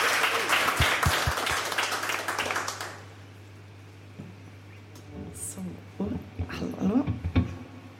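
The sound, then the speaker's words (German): Applause from a live radio studio audience welcoming a singer: a dense, crackling burst of clapping that lasts about three seconds and then stops abruptly, leaving quieter room noise and a few brief voices. “Also jetzt bitte nochmal einen donnernden Applaus, dann hat auch Sarife genug Zeit zum Mikrofon zu gehen”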